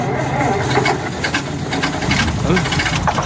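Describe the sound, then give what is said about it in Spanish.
A car engine that has jammed and is stalling runs roughly, giving a loud, continuous rumbling drone with knocking, sputtering texture that holds steady from start to end. “Vaya, el motor se ha encasquillado.”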